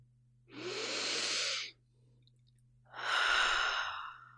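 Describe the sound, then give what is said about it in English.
A deep breath taken slowly: one long, airy inhale, a short pause, then a long, breathy exhale like a sigh. The sounds are soft and there is no speech. “Let's take a deep breath together.”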